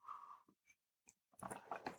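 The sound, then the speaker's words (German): A quick sip of tea, a few faint mouth clicks and a breath followed by a short, soft slurp and swallow, quiet and brief. “lass mich schnell ein Schlückchen Tee trinken.”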